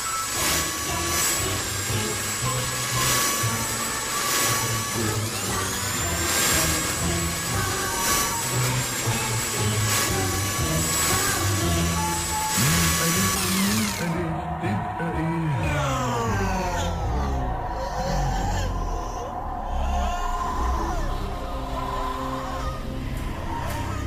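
An electric blender runs with a loud, steady motor whir and a high whine for roughly fourteen seconds, then shifts to a rougher, lower churning texture that continues to the end.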